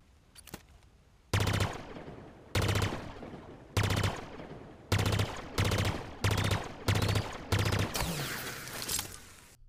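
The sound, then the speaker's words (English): A video game pulse carbine fires several loud bursts, each a rapid rattle of shots, spaced at fairly even intervals after a few faint clicks at the start. “The next weapon, the pulse carbine.”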